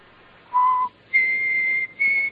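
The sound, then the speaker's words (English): A person whistles three clear notes alone: a short lower tone, then a long, higher sustained note, then a briefer note at that same higher pitch after a short gap. “I just whistled.”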